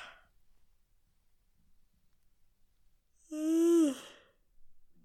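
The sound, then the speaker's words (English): A deliberate, voiced human yawn, performed on purpose: one drawn-out breathy vocal sound lasting under a second, fairly loud, with its pitch sliding down at the end, set between near-silent pauses. “I'm going to do a nice yawn now”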